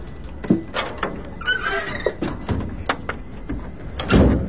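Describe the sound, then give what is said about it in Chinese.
A door swings shut with a squeaky, high-pitched whine among several sharp clicks and knocks, ending in a louder thump, in a comedy scene set in a shop. “门咋关上了呢？”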